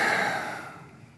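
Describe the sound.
A single deep breath: an airy, breathy rush of air that starts fairly loud and fades away over about a second.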